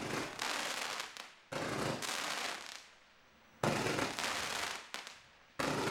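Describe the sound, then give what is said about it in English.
Fireworks at a manufacturer's demonstration in China, a ten-shot volley into a finale: loud crackling, popping bursts in several long clusters separated by brief silent gaps. “So this is a demo at the manufacturer in China, right? Yeah. A lot of nice colors, mm-hmm. a lot of good height. Nice finale.”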